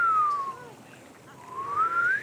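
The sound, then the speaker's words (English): A voice imitates a lifeguard's pool break whistle at a city pool in Austin with a clear, whistle-like tone. The tone glides steadily down in pitch, holds low briefly, then climbs back up to end high. “The break whistle. The whistle that means everyone has to get out of the pool. Can you demonstrate what it sounds like?”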